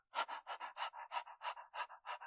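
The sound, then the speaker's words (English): A person panting like a dog, with tongue out: quick, even in-and-out breaths repeating many times in a steady rhythm, soft and breathy, with no talk. “Tongue out, panting.”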